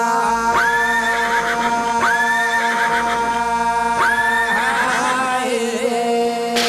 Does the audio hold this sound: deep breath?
no